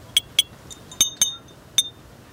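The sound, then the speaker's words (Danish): Sharp glassy clinks from an object tapped on glass bottles: about five bright, brief taps in an irregular rhythm, each ringing only for a moment, with no voices. “som jeg ligesom kan slå på de her flasker med. I kan lige få en lille smagsprøve.”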